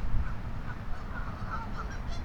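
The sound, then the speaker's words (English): Geese honking and squabbling, short overlapping calls rising out of a steady rushing background and repeating throughout at moderate loudness, with no voices. “But there's some very serious goose arguments taking place back in here.”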